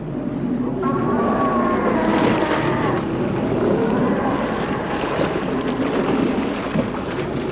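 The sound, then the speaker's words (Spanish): Huge waves of water surging against a raft on a rough sea, heard as a continuous loud, wind-like roar and wash with faint whistling tones drifting through it. “Levantan montañas de agua que llegan hasta la balsa, poniéndonos a punto de zozobrar.”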